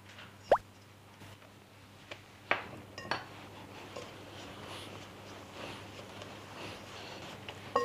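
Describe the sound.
Spoon clinks as a tablespoon of banana flour is added to a thin cracker dough mixture: a few sharp metallic taps spread over a quiet, steady low hum, with no voices.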